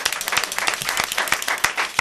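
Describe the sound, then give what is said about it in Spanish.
A studio audience applauds: dense, loud, continuous clapping from many hands, steady throughout with no talking over it. “¿Cuántos aplausos que hay por acá? Tantos aplausos son reacción de un grupo desmesurado de gente que ha invadido nuevamente el estudio.”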